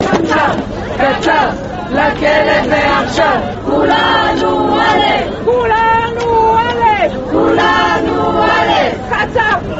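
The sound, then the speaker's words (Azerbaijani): Women's rights activists protest outside a courthouse after a verdict against a former president, a loud crowd chanting repeated phrases in rhythmic bursts with brief gaps, voices blending into a rough, shouted chorus. “Məhkəmənin bu qərarını alqışlayan qadın hüquqlarını müdafiə fəalları binanın qarşısına toplaşaraq keçmiş prezidentin dərhal həbsə göndərilməsini tələb ediblər.”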